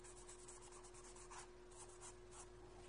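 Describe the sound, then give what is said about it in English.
Faint scratchy strokes of a writing tool as a diagram of a drug molecule is drawn during a talk on brain cells and receptors, soft rubbing bursts over a steady low hum. “This is my primitive drawing of a brain cell with the nucleus here. Now, here's the drug, okay? It looks like this.”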